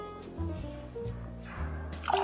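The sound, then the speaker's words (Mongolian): Water being poured into sea buckthorn milk to dilute it half and half, 300 grams of each, heard as soft liquid trickling and dripping that turns into a brief splash near the end. “шар бурцгийн сүү усаа ингээд 50-50 хувьтай 300 грамм шар бурцгийн сүү 300 грамм ус хийж өгнө.”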